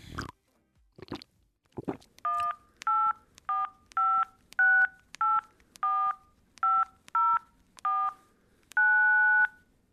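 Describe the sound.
Touch-tone phone keypad dialing to call a tailor: a few handling knocks, then a steady run of clear, evenly spaced beeps, with the final tone held noticeably longer than the rest.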